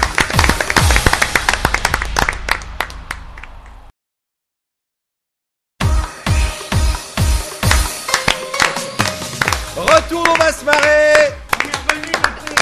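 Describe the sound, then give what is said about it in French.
An audience claps rhythmically at a comedy show in steady sharp bursts, breaks off into a couple of seconds of silence, then resumes with tonal sounds layered over the clapping. “Donc on vous applaudit quand même. Ah, bravo. C'est bien, hein. Bravo.”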